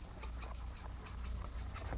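Scratchy pen strokes as the word persevering is written by hand: quick, faint, rhythmic scraping bursts with no other sound.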